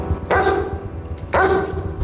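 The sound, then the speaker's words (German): A German shepherd dog barks twice, each bark a loud harmonic burst about a second apart, over low background noise. “heute Abend dreht sich alles um einen Hund. Aber nicht um irgendeinen, sondern um einen Schäfer namens Rex”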